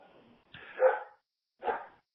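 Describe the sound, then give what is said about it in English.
A dog barks twice, a longer, drawn-out bark followed by a shorter, sharper one after a short pause, both fairly loud against a quiet background. “And there's my dog barking.”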